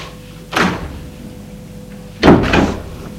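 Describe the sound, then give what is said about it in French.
A door slamming shut, heard as two loud bangs: a first slam, then after a pause a louder, sharper one, each followed by a short rattling decay. “Une porte a claqué.”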